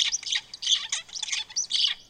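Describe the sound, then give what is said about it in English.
A young songbird sings its practice song at the intermediate, plastic stage of learning, repeating one high-pitched note several times in quick, chirpy bursts. “You'll notice here there's a high-pitched note that the bird repeats several times.”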